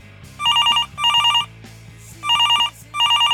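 A telephone rings for an incoming video call with bright, trilling electronic bursts: four short rings grouped in two pairs with a gap between them, clear and fairly loud, with no voices.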